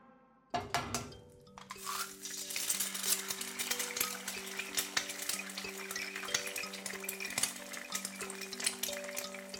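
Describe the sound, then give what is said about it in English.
Cooking sounds: a steady frying sizzle with clinks of utensils and pans begins abruptly after a quiet opening, and music plays underneath throughout. “This is the sound of cooking.”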